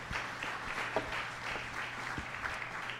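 Applause from a live audience greeting guests at a TIFF-related show taping. A moderate, even clatter of many hands continues over a faint steady hum.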